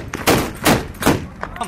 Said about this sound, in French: Je réponds à leurs tirs. Je vise leur position pour qu'ils cessent de nous bombarder.